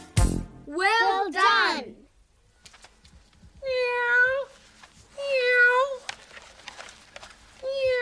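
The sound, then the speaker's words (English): Cat meowing in five drawn-out calls: two quick, wavering meows close together, then three longer, steadier ones with gaps between, fairly loud with little else behind them. “that cat... Meow. That cat sure talks a lot.”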